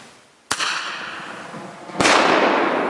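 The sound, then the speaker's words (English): Two bear banger flares, noisy wilderness bear deterrents, go off as two sharp, loud cracks about a second and a half apart, each followed by a long hissing, rushing tail that fades slowly. “Bear bangers are what you're seeing in this video. They're noisy flares used in the wilderness to scare off bears. Just pull this back and release.”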